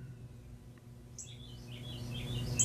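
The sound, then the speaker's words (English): Faint, high bird chirps and tweets drift in over a steady low hum, with scattered short calls growing slightly more frequent toward the end and no voices. “Can you hear the birds in the background? They're providing background music.”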